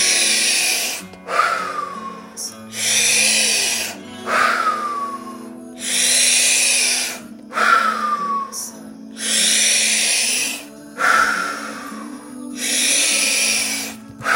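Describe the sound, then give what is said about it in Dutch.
Deep guided breathing, in through the nose and out through the mouth, as part of a breathing exercise: many slow, even cycles of airy, rushing breath sounds in a steady rhythm, with no talking. “Adem 2 keer in via je neus, in via je mond uit. laatste in. Daar gaan we, adem in.”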